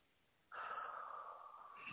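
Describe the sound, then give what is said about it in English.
A deep breath is released in one long, steady exhale. It begins abruptly after a short quiet moment and continues at an even, soft breathy level to the end. “So take a deep breath and hold it for a moment. And release when you're ready.”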